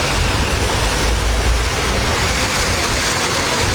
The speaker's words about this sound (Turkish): Yıldırım düştü şu anda.